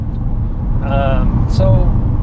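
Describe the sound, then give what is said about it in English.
A car interior rumbles while driving, with a constant low, dull road and engine drone. Brief bits of speech from people in the car rise above it. “Yeah, in the car. Yeah. So you got the car noise.”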